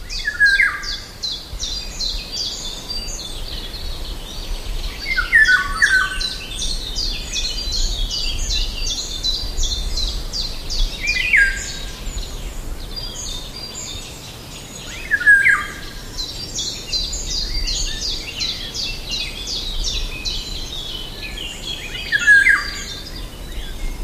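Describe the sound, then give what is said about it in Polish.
A Eurasian golden oriole sings in a Polish summer, giving brief fluty phrases that recur every few seconds over a continuous high twittering. “Posłuchajmy więc śpiewu wilgi. Dla mnie to z pewnością jeden z najpiękniejszych głosów polskiego lata.”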